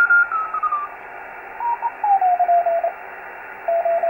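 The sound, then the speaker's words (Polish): A radio operator's call signal transmitted from Ireland comes through as a few short phrases of gliding, descending tones over a steady bed of radio hiss. “A teraz wywołanie daj Irlandii. Z Irlandii operator nadaje wywołanie.”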